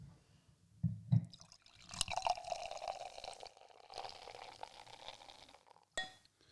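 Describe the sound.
Beer poured into a glass: a quiet, gurgling stream of liquid with a couple of soft low knocks early on and a brief clatter near the end.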